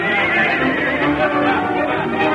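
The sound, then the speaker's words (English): A powerful bay stallion neighs while plunging wildly under a rider, giving a loud, shrill, sustained whinny that carries through the whole clip without pause. “had thrown his saddle on Satan, a powerful bay stallion with a reputation of a killer. And now Dusty was riding the wildly plunging animal with the grace and ease of a master horseman.”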